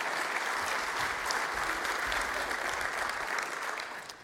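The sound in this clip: An audience gives a round of applause to a group of contest participants, with steady, fairly faint clapping that tapers off at the end.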